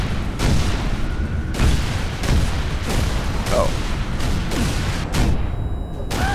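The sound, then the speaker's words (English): Heavy cannon booms in a video game, fired at incoming ships. Many loud blasts land at uneven intervals over a dense, continuous rumble of battle noise. “I was trying to use the cannon to blow up the ships that are coming in. But then they blew me up.”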